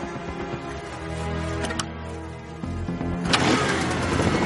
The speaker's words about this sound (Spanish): La moto se ha puesto en huelga. ¿Está todo bien atado? Eso espero. Entonces enciendo el motor, ¿no?